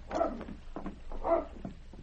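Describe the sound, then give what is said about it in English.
Dog barking on a town street, a few short, sharp barks, two of them louder and fuller than the quieter yips around them, with no other sound. “That dog coming down the street. He looks to be heading straight for us.”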